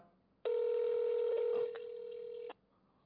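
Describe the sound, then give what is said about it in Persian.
A telephone ringback tone on a viewer's call into a studio line: one steady electronic tone that holds for about two seconds, dropping slightly in level partway through before cutting off. “بیننده تلفن داره بوق میخوره”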